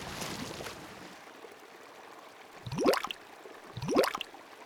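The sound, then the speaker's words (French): Water sounds from diving into a lake: two rising, bubbling surges, each swelling and fading over a soft, steady watery hiss. “À trois, on plonge.”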